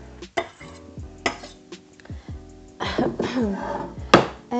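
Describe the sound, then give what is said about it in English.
Onions dropped into a hot pan while cooking greens and eggs: a few knocks and utensil clatter, then a burst of frying sizzle around the middle, with a voice heard underneath. “So I'm dropping in the onions in the pan.”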